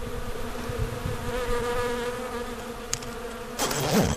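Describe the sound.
Honey bees buzz at a beehive being prepared for summer honey collection, a faint, steady, droning hum with a brief rustling noise near the end.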